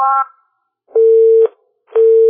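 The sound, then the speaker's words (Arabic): A telephone busy tone sounds after a call disconnects. A short, richer tone comes first, then two steady, low beeps of equal length with silent gaps between them. “طيب واضح الاتصال انقطع.”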